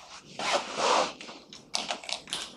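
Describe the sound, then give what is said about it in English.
Handwriting scratches across a surface in a few short, dry, rasping strokes with brief pauses between them, faint and without voices. “So instead of m, I'm writing mu l.”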